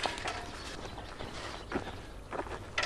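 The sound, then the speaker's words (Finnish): Faint footsteps of someone walking back to the starting point in a yard while checking tawny owl nest boxes, a steady, irregular run of soft crunching steps with a few louder footfalls. “Kävellään taas lähtöön.”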